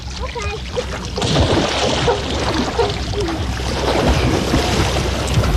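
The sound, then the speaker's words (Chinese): Water splashes and sloshes steadily as someone swims leisurely in a swimming pool, a continuous rough wash of sound that holds an even loudness for the whole stretch. “游泳池里碧波荡漾，文娜汉斯悠闲地游着泳。”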